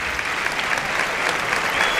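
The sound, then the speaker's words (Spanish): Steady applause from a bullfight audience giving an ovation, a dense, continuous clatter of clapping that holds at an even, fairly loud level throughout, with no single voice standing out. “A recoger la ovación del público.”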